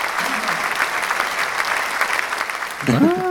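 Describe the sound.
Audience applause welcoming a guest introduced as Dracula, dense, steady clapping throughout, with a voice starting up near the end.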